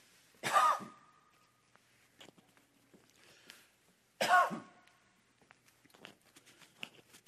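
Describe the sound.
Two harsh bursts of coughing and throat clearing, a few seconds apart, with faint small clicks and rustles between them and no talk.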